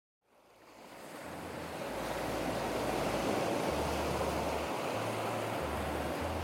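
Ocean waves wash onto a sandy beach lined with coconut palms beside a turquoise sea. The steady, broad rushing surf swells up over the first two seconds, then holds at an even, full roar with no voices.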